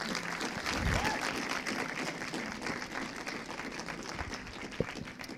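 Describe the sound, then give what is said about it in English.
Audience applause at a film club discussion event, welcoming three special guests to the stage: a dense, steady wash of clapping that holds for the whole stretch, with one brief sharper clap standing out near the end. “So, if you wouldn't mind putting your hands together to welcome our special three guests.”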